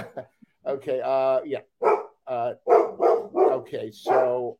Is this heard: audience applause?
no

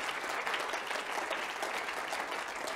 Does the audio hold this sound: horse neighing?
no

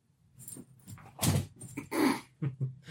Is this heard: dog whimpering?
yes

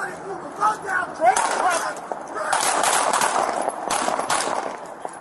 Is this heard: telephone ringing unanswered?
no

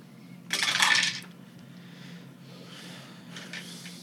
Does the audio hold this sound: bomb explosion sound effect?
no

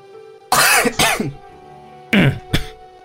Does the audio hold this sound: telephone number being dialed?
no

